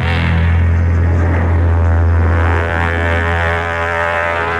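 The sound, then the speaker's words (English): Loud, steady propeller aircraft engine drone as airport ambience at Dulles International Airport, a continuous heavy low rumble and hum that holds through the whole stretch and eases slightly toward the end. “Dulles International Airport catching the celebrities on the run as they come to and from our nation's capital”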